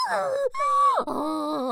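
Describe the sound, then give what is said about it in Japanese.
A voiced yawn, drawn out into a moaning tone that sweeps and bends in pitch, broken by two short pauses, heard alone without other talk. “あくびしましゅ”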